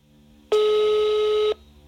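Ringing tone of an outgoing telephone call: one loud, steady, mid-pitched beep lasting about a second over a quiet background.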